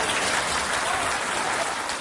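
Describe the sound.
Dense applause fills a courtroom as defendants enter for a trial: steady, continuous clapping from many hands, evenly loud with no pauses.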